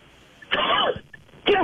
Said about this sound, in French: Pardon, excusez-moi, je m'étouffe.